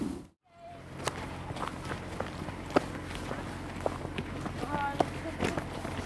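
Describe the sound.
Footsteps of people walking on, a long run of soft, evenly paced steps over a steady low background hiss.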